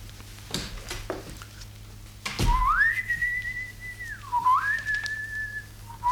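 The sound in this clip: A man whistles an opera melody in long, bright, sustained notes. A high held tone dips briefly and then rises again. It is clear and alone, with a few soft knocks before the tune begins.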